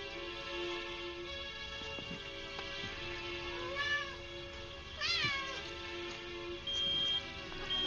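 A cat meows twice in short, rising-and-falling calls, with a steady high tone appearing briefly near the end.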